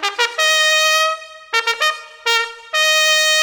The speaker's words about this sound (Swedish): en fanfar som låter så här